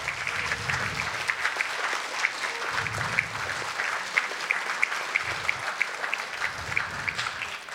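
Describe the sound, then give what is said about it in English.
Audience applause at a 2019 general election hustings in Motherwell and Wishaw: dense, steady clapping from a roomful of people that carries on evenly for several seconds, with a few louder claps rising above the wash. “And can I just ask everybody in this room to give a huge round of applause to the WASPI women?”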